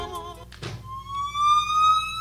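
Police siren sound effect: a brief noisy burst, then a loud, steady electronic wail that holds one rising tone with clear harmonics and no voices over it.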